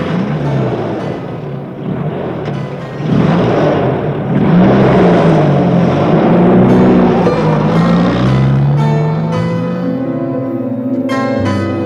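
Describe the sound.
A car engine rumbles and revs as the car drives off from the gate, a loud steady drone whose pitch wavers up and down.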